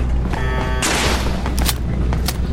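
Video-game gunfire from small floating robots shooting at the player: a loud burst of blasts, then a few sharp single shots over a dense, steady game soundscape.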